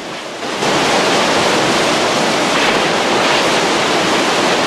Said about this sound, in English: Suddenly, water surges along the channel, pouring over him and sweeping him away.